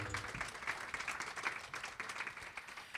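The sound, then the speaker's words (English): Audience applause at a live stage event, a dense, even patter of many hands clapping, faint but steady throughout without a clear start or end. “Round of applause for Neil Morris.”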